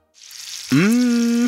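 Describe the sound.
Bacon sizzling in a pan as an advertising sound effect: a bright hissing sizzle fades in and runs steadily, joined midway by a sustained low tonal hum that holds to the end.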